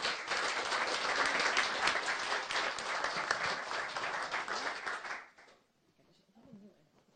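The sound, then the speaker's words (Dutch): Applause greets a newly sworn-in deputy committee member: dense, steady clapping for about five seconds that stops abruptly, leaving faint scattered sounds. “Van harte gefeliciteerd hier in ons midden, en dat is volgens mij wel een applausje waard.”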